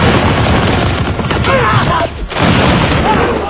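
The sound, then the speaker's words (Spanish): Intense volley of rifle gunfire: a dense, continuous rattle of overlapping shots that stays loud throughout, with a brief dip in intensity partway through. “Los tagalos respondieron con un intensísimo fuego.”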